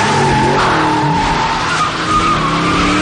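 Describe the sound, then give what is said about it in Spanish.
Tires squeal loudly and continuously as a car speeds away down a street, with the engine roaring under the skid throughout. “Entonces oye las puertas de un coche en la calle y cómo este sale a toda prisa.”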